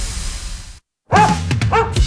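Dog barking: after a brief silence, a few sharp, bright barks and yips come loud and close together.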